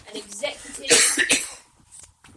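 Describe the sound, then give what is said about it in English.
A short cluster of harsh, rough coughs bursts out loudly, with quieter murmuring sounds just before and after. “Yeah, I was coughing my guts up.”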